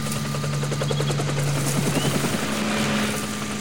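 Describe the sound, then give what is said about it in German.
Two helicopters search a coastline, their rotors giving a continuous loud, rhythmic thudding over a steady engine drone that fills the whole clip without any voices. “Zum Glück nur 2 Hubschrauber. Sie suchen die Küste ab.”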